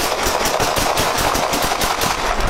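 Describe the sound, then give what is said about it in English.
Gunshots fired during a police confrontation with an armed suspect: a dense, continuous stream of many rapid sharp cracks, loud and steady throughout with no talk. “Shots fired. Shots fired.”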